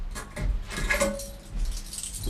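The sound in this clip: Keys jingle as a hotel room key is handed over at a run-down hotel's front desk: a few short metallic rattles over a low background hum, with no talk.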